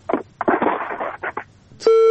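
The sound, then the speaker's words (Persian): A telephone tone sounds after a call disconnects: a few bursts of garbled, line-quality voice give way to a loud, steady electronic tone that holds to the end. “بالاخره تماس قطع شد یک تماس دیگه میگیریم”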